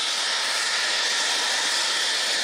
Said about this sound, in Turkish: Bu sırada borudan basınçlı şekilde çıkan gaz metrelerce havaya yükselirken yüksek ses nedeniyle